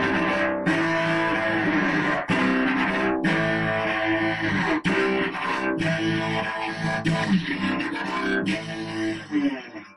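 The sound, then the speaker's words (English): Distorted metal cello: heavy, buzzing bowed strokes played in a chugging rhythm with a few sharp accents. The gritty tone stays loud and dense throughout, with no voices. “And we can play metal cello, which sounds distorted.”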